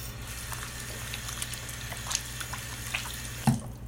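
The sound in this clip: Water runs steadily from a tap during scrubbing and washing, a constant gurgling flow broken by a few light taps and knocks, with one sharper knock near the end.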